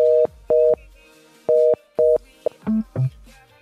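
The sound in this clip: Telephone line tones sound while a call goes unanswered: four alike short, steady electronic beeps in an on-off pattern, then a few briefer beeps at a lower pitch.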